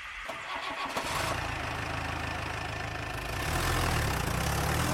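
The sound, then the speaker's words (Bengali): A car engine rumbles as the car pulls away on a cold mountain road. The steady mid-pitched drone with rough knocking texture grows louder toward the end. “ফের যেন অনেক দেশের দিকে চলতে শুরু করেছিল গাড়িটা”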